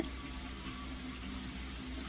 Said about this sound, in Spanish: Pues abriendo el grifo. Este para el agua caliente y este para la fría.